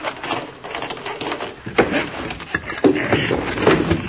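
A sliding door is unlocked and slid back, making a few clicks and knocks and then a louder rattling, scraping rumble.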